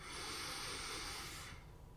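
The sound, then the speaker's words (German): A deep breath drawn in through the belly: one long, airy inhale that holds for about a second and a half, then falls away into quiet, with no talk. “Atme wieder mit dem Bauch ein”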